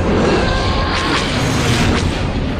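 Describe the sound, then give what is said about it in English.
Incoming mortar shells exploding in a video game battle, heard as a loud, continuous low rumbling roar with a few sharper bursts cutting through, and no voices. “Mortars coming in. Blast!”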